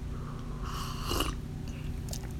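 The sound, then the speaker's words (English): A short, breathy slurp as someone sips coffee, rising out of a constant low hum and fading back into it. “I'm sipping some coffee.”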